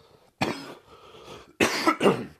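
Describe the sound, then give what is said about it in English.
A few harsh, abrupt coughs from someone with an irritated throat, arriving as loud separate bursts with short gaps between them and no speech. “I'm sorry. I keep coughing. I don't think I am sick. I think I just have something in my throat”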